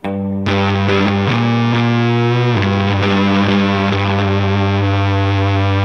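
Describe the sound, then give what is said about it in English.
Thick, fuzzy distorted electric guitar from a pedal modelled on the blue Fuzz Face David Gilmour used at Pompeii. Loud sustained chords ring with several changes and heavy harmonic saturation throughout. “like what David Gilmour used on Live at Pompeii. That's another video that I'm obsessed with, is Live at Pompeii, and this is that fuzz face. So here's the sound on that.”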